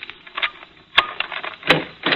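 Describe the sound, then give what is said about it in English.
Metallic clicks of a skeleton key working a door lock: two sharp, distinct clicks stand out among softer scraping and rattling as the key is turned. “Oh, wonderful invention, keys. Not nearly as messy as a crowbar.”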